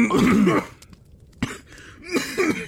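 Coughing and throat clearing after a swig of Fireball went down the wrong pipe: a few harsh, rasping coughs in a burst, then a lone sharp cough and another ragged flurry.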